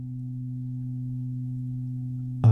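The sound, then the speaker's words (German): A pleasant, slightly eerie background hum tone made for a piece holds as a steady low drone of two sustained pitches, then ends abruptly in a short louder burst. “Da gab es dieses Hintergrundsurren, weil wir wollten dem Stück einen künstlichen akustischen Raum geben und etwas schwer definierbares als akustische Entsprechung nehmen.”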